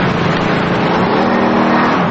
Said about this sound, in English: As Robert drives the truck, Kathy and Katie sit in the passenger side. Frost and Paul follow in the van.